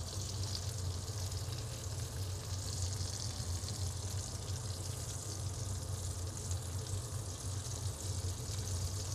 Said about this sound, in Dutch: nu heb ik dus die acht partjes venkel, die heb ik nou eh, in de pan liggen. En die, heb ik, die liggen nou op één van die snijkanten. En die bak ik ook heel eventjes aan.